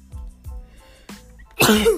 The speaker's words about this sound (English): I thought I was going to sneeze.